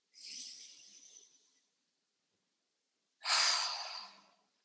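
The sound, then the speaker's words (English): Deep breathing during a guided breathwork exercise: two long, airy, hissing breaths separated by a few seconds of silence, the second louder and sharper at onset, then fading. “And on this next inhale, think of something you want to let go of from your body, your life. And as you exhale, release it.”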